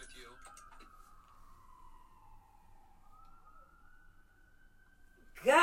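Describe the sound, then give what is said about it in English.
Emergency vehicle siren, fire trucks passing through a suburb: a loud, steady wail glides slowly downward in pitch, then holds on a level tone, ending with a sudden loud burst of noise. “these sirens are ridiculous. Guys, I'm sorry for the dead noise. And yeah, man, that was crazy. We dealing with a lot of sirens right now.”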